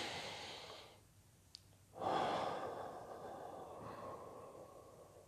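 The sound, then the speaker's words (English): A deep breath, a single long airy rush of breath that starts abruptly, peaks, then tapers off gradually over about three seconds, soft and alone with no talk. “And take a deep breath.”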